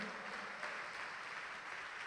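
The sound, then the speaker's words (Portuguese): Congregation applauding the Lord during a church service: a steady, dense wash of clapping with no break, faint and alone. “Vamos aplaudir o Senhor.”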